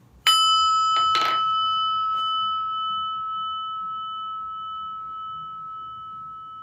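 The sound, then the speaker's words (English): A meditation bell is struck once and rings on in a clear, sustained high tone that decays very slowly across the whole stretch, with no voices. “So to get this meditation started, I ask you us all to just get a big old breath and listen to the bell.”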